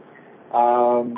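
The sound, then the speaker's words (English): Telephone tone on a call-in line as a caller comes through. A steady, buzzy electronic tone lasts about half a second, followed by a brief higher beep. “I really believe we got a caller calling in.”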